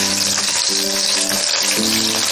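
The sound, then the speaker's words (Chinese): Scallion, garlic and broad bean paste sizzle loudly as they are stir-fried in hot oil, a steady, dense crackle with faint tonal scraping from stirring throughout. “我们倒入适量的油，放入适量的葱蒜，炒香，再放入豆瓣酱，继续翻炒，”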